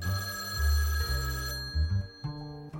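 A telephone ringing with steady electronic tones that step between a few pitches, sounding alone and fairly loud.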